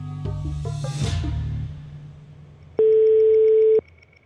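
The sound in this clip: A telephone line tone sounds as a call is put through to the Czech national anti-drug authority in Prague: one steady, loud, single-pitched tone lasting about a second, preceded by a few quick plucked notes and a whoosh.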